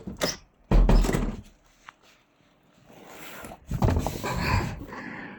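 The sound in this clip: A door is shut with a heavy, low thud, surrounded by scraping and rustling movement noises and a few softer knocks.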